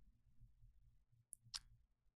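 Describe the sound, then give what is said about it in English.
Two sharp, faint clicks from a computer mouse or keyboard with swappable switches, falling close together just past the midpoint over a low, steady hum. “Cool. What did I just click?”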